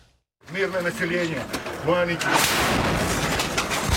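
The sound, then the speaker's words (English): A missile striking a line of fleeing civilians: a loud, broad blast roars in after a couple of seconds of shouting voices and stays loud and rough until the end. “The missile fired straight into a line of civilians even as they were trying to escape.”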